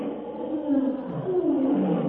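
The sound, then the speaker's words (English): A charging lion gives a deep, rough roar that lasts the whole moment and swells in two strong waves of growling sound. “As the crouching lion hurls himself toward the half-conscious Irishman, Tarzan”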